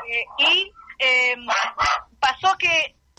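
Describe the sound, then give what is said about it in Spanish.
A dog barks indoors in a series of sharp, bright barks and higher yips. The barks come in quick separate bursts of similar loudness across the moment. “a propósito de la CNI está ladrando el perro, ¿no?”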